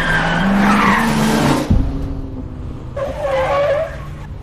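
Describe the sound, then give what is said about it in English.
Tires skid as an oncoming car swerves on a highway: loud, noisy engine roar and tire screech at first, a sharp jolt, then a second, shorter squeal. “She pulls over and watches as he turns back out onto the highway. An oncoming car swerves around him.”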